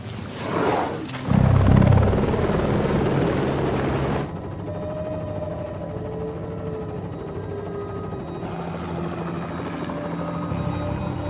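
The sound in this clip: Helicopter flying over a wildlife reserve where rogue bull elephants are being tracked: a loud, continuous rotor and engine roar, heaviest in the opening seconds and then settling into a steadier drone with no voices.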